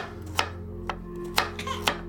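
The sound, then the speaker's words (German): A knife chops carrots on a kitchen counter, giving a few sharp, crisp strikes at a fairly steady pace over a low, constant hum. “Eva zündet 4 Kerzen an, eilt zur Anrichte und schneidet Karotten”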